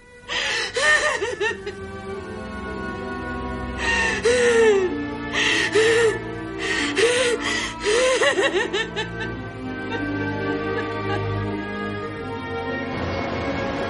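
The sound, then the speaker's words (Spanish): A woman bursts into tears in a tense film scene, with repeated wavering, high-pitched sobs and catching, gasping breaths rising and falling in bursts over a steady background. “Paloma, incapaz de aguantar la tensión, rompe a llorar.”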